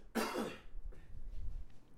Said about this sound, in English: Got a cough. One sec.